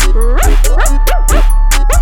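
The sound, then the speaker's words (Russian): A dog yaps and whines in a quick run of high, harmonic yips whose pitch bends up and down, heard over a steady low hum while a music track is being recorded. “Тише, не лай, мы тут этот трек записываем.”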